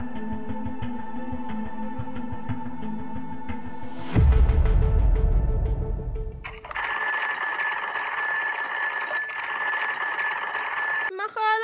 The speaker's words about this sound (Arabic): ما خلاص يا منبه الزفت، زن. صحيت يا اخويا